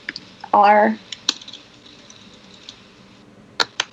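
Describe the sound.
Computer keyboard keys tapped while typing a search, a few sparse, sharp clicks spread out with pauses between them, and a brief voice early on.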